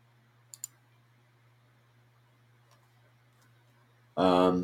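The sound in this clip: Two quick, sharp computer mouse clicks come early while someone opens a news article, followed by near silence over a low hum before a person starts talking.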